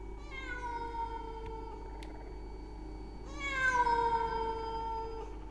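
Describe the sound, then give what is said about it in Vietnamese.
A stray cat yowls at night in two drawn-out, wavering cries like a crying child. The second cry is louder and higher than the first, with no other sound besides a faint low hum. “bất chợt có tiếng con mèo hoang kêu lên giữa đêm vắng, tiếng kêu như là trẻ con khóc não nùng”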